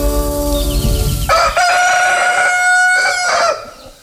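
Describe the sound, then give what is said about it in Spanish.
A rooster crows once in a long, loud, bright call that holds steady before trailing off, following a brief low rumble. “Sigue cantando el gallito”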